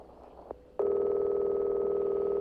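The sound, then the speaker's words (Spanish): Ringback tone of an outgoing telephone call to Poland: a steady, sustained electronic tone that starts suddenly after a short quiet stretch with a couple of faint clicks and continues unbroken. “Está llamando. Primer tono. A ver, segundo tono. Vamos a ver. Segundo tono.”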